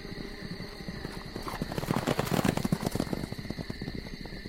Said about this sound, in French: Ils ressortirent presque immédiatement et enfourchèrent de nouveau leurs chevaux qu'ils avaient eu la précaution d'attacher aux arbres.